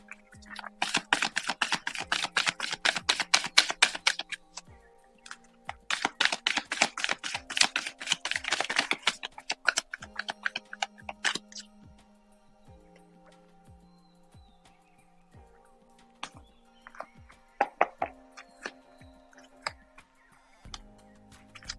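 Cards being shuffled for a card reading: two long bursts of rapid riffling clicks, each lasting a few seconds, followed by scattered lighter taps and flicks as the cards are handled.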